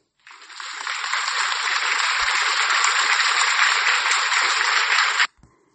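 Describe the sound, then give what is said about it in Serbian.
Audience applause welcomes a guest doctor to a health talk on kidneys, a dense, even, hiss-like wash of clapping that starts sharply, holds steady for about five seconds and cuts off suddenly. “pa ćemo joj za početak dati jedan pljesak.”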